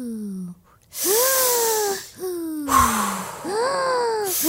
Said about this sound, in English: Just take a few deep breaths. Ready? Inhale. And exhale. And inhale. And exhale.